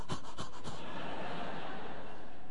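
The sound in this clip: A voice imitates heavy panting, starting with a few quick, sharp breathy bursts and then trailing off into a softer, rushing breath that fades out.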